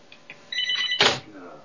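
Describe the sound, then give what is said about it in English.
A telephone bell rings in a short, bright burst, and a voice is briefly heard with it. “Oh, that stupid phone. I knew I forgot to. Hold on, guys.”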